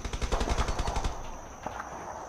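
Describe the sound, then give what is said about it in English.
Gunfire near a village by a river during a guerrilla conflict, a faint rapid burst of many shots in quick succession that cuts off after about a second, followed by a few scattered, quieter cracks. “Where do you think the firing's at? I'd say a bit west of the village, Brother Mark, maybe by the river.”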